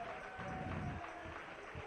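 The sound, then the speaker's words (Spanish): Faint applause from a church audience during a sermon, a soft, steady patter of clapping that holds at a low level throughout. “Dale un aplauso al Rey en esta tarde.”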